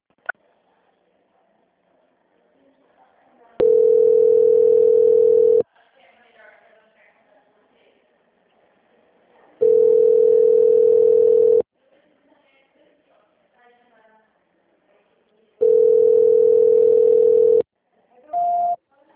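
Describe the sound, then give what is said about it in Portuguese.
Telephone tone after a dropped call: three long, steady mid-pitched beeps, evenly spaced with quiet gaps, followed by a brief higher-pitched beep. Faint background noise fills the pauses. “Beleza, tá caindo a ligação, né? Tá caindo.”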